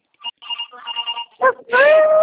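A telephone ringtone sounds with bright electronic tones in short repeated bursts, ending in a louder, sustained ringing phrase.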